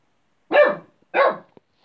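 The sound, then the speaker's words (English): A dog barks twice in quick succession, loud and full-toned, in an open spot on a bare hill by an ancient stone circle in Wales where motor vehicles are prohibited. “The dog's barking in the background”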